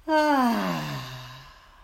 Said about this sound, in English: deep breath in. And a loud exhale.